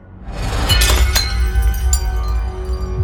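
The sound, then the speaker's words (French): A dropped tray sends glass shattering with sharp crashing breaks, followed by a busy scatter of clinking, tinkling shards. “lâche subitement le plateau.”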